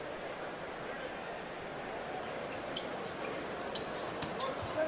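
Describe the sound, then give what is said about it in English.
A basketball being dribbled on a court during a game, a run of quick, light bounces that grows more frequent toward the end, set against a dense crowd wash and voices. “Smart. Oklahoma State product. Gives it up top to Tatum. Dribbles to his left. Carries. No call.”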